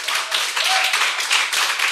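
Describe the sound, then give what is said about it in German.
Applause from an audience at a live venue event: dense, steady clapping from many hands that fills the short clip at an even, loud level. “den Applaus will ich euch natürlich da draußen auch nicht vorenthalten.”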